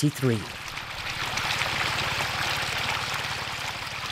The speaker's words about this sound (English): Water runs through a small channel into a neatly planted bed.